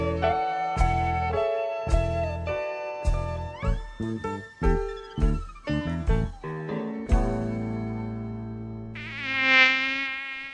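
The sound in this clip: A mosquito of the kind that transmits dengue buzzes with a thin, whining drone that swells and fades over the last second or two, following a passage of tuneful music notes.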